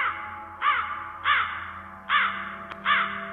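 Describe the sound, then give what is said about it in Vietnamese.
Black crows in tall trees around a cemetery at midnight give four loud, harsh, evenly spaced caws over a faint steady hum. A single sharp click falls between the third and fourth caw. “vài con quạ đen bất thình lình vỗ cánh phành phạch rồi bay vút lên, kêu lên từng tiếng thê thiết rợn người.”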